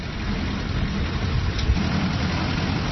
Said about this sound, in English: That's the sound of a tractor.